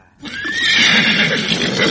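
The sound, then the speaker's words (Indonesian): A donkey, one of several taken out to haul firewood, lets out a single loud, harsh bray that starts abruptly and holds steady for under two seconds, with no voices heard. “Pak, kenapa sampai 3 ekor keledai kau bawa hari ini?”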